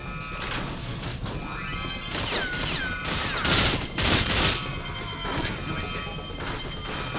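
Video game gunfire from a very large gun: loud, dense bursts of shots mixed with crashing, smashing impacts, continuing without pause throughout.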